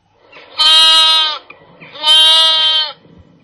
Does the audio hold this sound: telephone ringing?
no

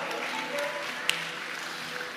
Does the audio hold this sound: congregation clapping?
yes

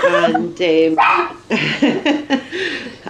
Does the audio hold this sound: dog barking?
yes

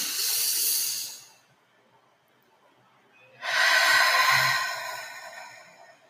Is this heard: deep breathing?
yes

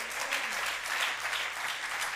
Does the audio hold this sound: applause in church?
yes

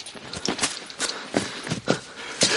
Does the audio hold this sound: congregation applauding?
no

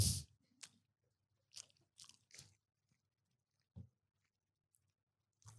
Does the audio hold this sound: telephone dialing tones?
no

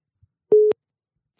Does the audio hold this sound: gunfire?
no

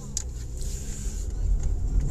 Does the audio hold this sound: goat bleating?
no

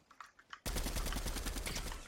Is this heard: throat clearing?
no

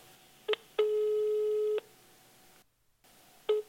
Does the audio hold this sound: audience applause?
no

